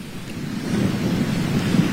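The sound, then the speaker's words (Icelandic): Strong wind blows outdoors with rain at Landmannalaugar, a dense, steady roaring rumble that swells slightly after the first second and then holds. “Já, það sól, rok og rigning en alveg afskaplega fallegt.”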